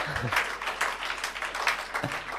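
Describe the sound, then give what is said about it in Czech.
Audience applause for a speaker: a steady, lively patter of many hands clapping, even in level throughout. “Pojďme zatleskat Jirkovi.”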